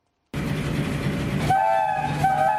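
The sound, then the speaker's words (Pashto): A passenger train on the Peshawar–Karachi line rumbles steadily along the rails, and a tonal horn sounds partway through over the continuous roar. “د پېښور او کراچۍ ترمنز چلیدونکي د ریل ګاډي خوشحال خان خټک ایکسپریس نومیږي”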